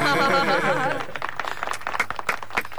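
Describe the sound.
Sparse applause from a small audience after a song: a sustained, wavering voice ends first, then scattered, uneven claps follow at a moderate level.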